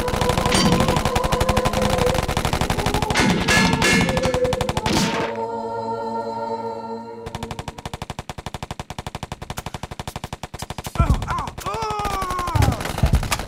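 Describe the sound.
Rapid machine-gun fire in a shootout involving federal agents in Detroit: dense, loud, continuous bursts, a brief break filled with a ringing tone, then sustained fire resumes to the end.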